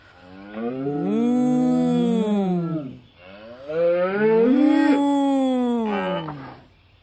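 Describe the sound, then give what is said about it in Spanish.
A bull bellowing, two long, deep, loud bellows of about three seconds each separated by a short gap, each resonant and harmonically rich with a slight bend in pitch. “Bramó el toro con todas sus fuerzas.”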